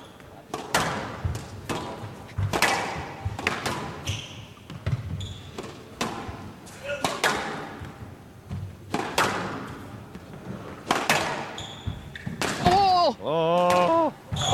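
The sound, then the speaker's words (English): Squash ball struck again and again in a professional rally, with Farag attacking to the back of the court. Many sharp, hard thuds follow in quick, irregular succession, and brief voices rise near the end. “The ultimate squash rally. A wonderful attacking length to the back of the court, and then the finish, and the extravagant one. Just what the doctor ordered for Farag, and really flexing his bicep there.”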